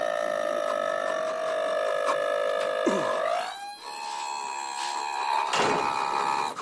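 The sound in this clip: Electric razor buzzing during a shave in a bathroom, a steady tonal drone that dips and shifts pitch briefly about halfway through, then carries on at an even level.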